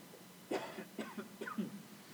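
Coughing: a short burst of several harsh coughs from a man's throat, coming in quick, uneven succession at moderate loudness and then stopping.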